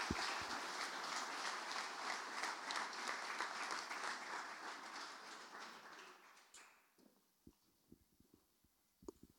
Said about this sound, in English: why don't we give these guys a round of applause tonight, can we?